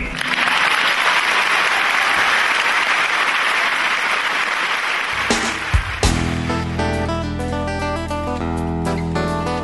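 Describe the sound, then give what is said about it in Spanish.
Studio applause for an interviewee on a talk show, a dense, even wash of clapping that fades as music with sustained tones comes in and plays to the end. “Fue tan hermoso lo que dijiste que vamos a inaugurar una nueva sección del programa que es aplaudir al entrevistado.”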